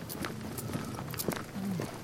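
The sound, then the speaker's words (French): Soft footsteps of a person walking, with a few light footfalls spaced at an even pace over a steady low background. “je peux pas m'empêcher d'écouter mes pas”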